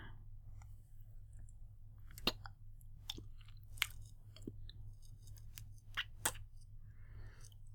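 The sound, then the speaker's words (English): Fingers are licked slowly, giving a few faint, wet mouth clicks and smacks spaced seconds apart over a quiet low hum. “sit up, and you watch me lick my fingers slowly.”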